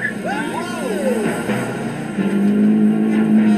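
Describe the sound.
A Renault car is driven hard on a timed lap. Its engine note climbs and falls through gear changes, then settles into a steadier drone under people talking.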